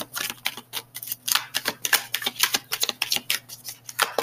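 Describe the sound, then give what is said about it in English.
Tarot cards being handled and drawn from a deck, heard as a rapid, steady run of many crisp clicks and papery flicks with no voices. “Okay, so I'm going to pull three cards here, and then we'll clarify.”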